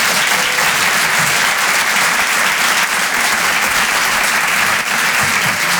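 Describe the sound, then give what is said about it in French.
Audience applause at a live comedy club show in a Paris theatre as a comedian is called to the stage, a dense, steady wash of clapping that stays loud for the whole clip with no voices over it. “Faites du bruit pour Harold Barbet.”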